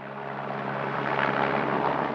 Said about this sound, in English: Helicopters whirl overhead.